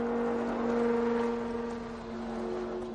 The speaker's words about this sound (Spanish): El coche se detiene.